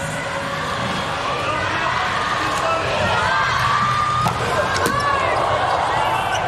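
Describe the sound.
A volleyball serve and ball strikes during a tense match, a couple of sharp hits standing out over steady crowd noise.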